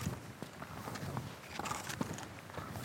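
People strap on their gear and set off walking in snow, their footsteps making soft, irregular crunches and thuds that stay fairly faint throughout.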